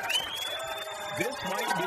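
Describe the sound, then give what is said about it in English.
A crowd cheers at an outdoor football field show, a steady wash of clapping and shouting voices that carries on without a break for the whole moment. “But we have this group in front of us cheering, and then there's people down the sidelines here on our football field”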